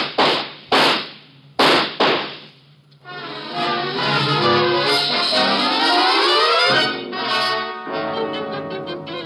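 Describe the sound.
Gunshots ring out as a few sharp, loud bangs in quick succession, followed at once by swelling dramatic music.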